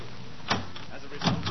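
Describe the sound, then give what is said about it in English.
Two short, muffled rattling tugs come from someone trying to open a stuck, locked door, set against a steady background hiss. “Quiet. Open the door easy. I'm going to.”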